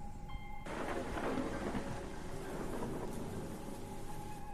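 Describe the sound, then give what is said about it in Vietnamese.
Heavy rain with thunder during a storm at an open grave. A dense, steady hiss of downpour starts abruptly after a quieter opening moment and carries on to the end, with low rumbling underneath. “Đúng lúc ấy thì bắt đầu có mưa ập đến. Trên bầu trời sấm chớp nổ đì đà đì đùng, càng làm cho không gian lại thêm phần đáng sợ.”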